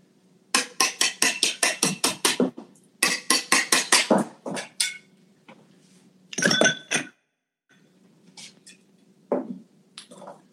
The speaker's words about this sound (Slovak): Dám tam pár lískov mety. Ešte takto. Pridám ľad.